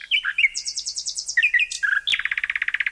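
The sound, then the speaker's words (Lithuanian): Nightingale song: loud, high, varied phrases of rapid repeated trilled notes and sweeping whistles, ending in a fast, evenly pulsed run of bright notes. “Kaip supratote, ši lakštingalos giesmė ir skirta Linai Paškevičiūtei.”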